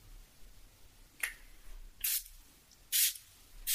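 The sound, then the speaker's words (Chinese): Hissing sprays from a hydrating facial mist bottle: three short bursts separated by brief quiet pauses, the first fainter and the last two louder and fuller. “喷一下，这个是补水喷雾”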